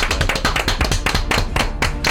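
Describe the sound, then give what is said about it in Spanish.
An enthusiastic ovation for a guest on a Spanish-language show: loud, dense clapping as a fast, irregular patter of sharp hand claps that keeps going at full strength from start to finish. “Pues venga, vamos a darle esta ovación cerradísima.”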